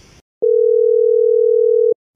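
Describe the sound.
A telephone call tone plays while someone phones a shop: one steady, unbroken mid-pitched tone lasting about one and a half seconds, loud and alone after a brief burst of noise.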